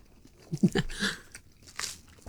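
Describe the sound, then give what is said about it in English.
Biting and chewing food during a taste test of butters: a crunchy bite, then soft chewing and another crisp crunch near the end. The sounds are fairly quiet, with no talk. “I think that's tasting pretty good. That tastes very nice. Yep. Okay, one. Tastes good. Right. Sorry to eat in front of you.”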